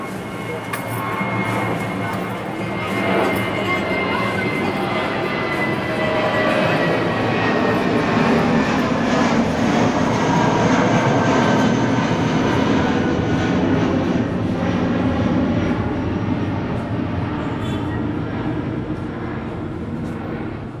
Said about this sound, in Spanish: Suena mi barrio actualmente, en las mañanas, cada 3 minutos, en aprox 3 minutos pasa siempre un avión.